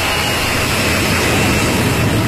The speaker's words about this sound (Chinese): 从无到有，国产大飞机一飞冲天。